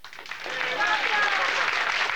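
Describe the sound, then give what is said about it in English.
Audience applause at an award ceremony, rising from a quieter start into a dense, sustained wash of clapping, with voices mixed in underneath. “Duval and the dark-haired woman are amongst those applauding.”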